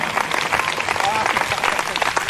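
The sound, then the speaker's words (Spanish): Congregation applauding during a church service, a dense wash of many hands clapping at once with a voice speaking over it. “Denle un aplauso al Señor, hermano.”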